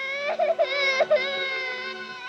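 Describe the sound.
A child cries in sustained, wavering wails with a clear tonal pitch that bends up and down across about two seconds, loud and alone without talk.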